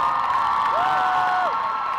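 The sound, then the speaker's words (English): Crowd noise at a climate strike, a dense, steady roar of many people cheering, with one whistle-like whoop that rises and holds briefly before dropping away. “We'll give them an applause.”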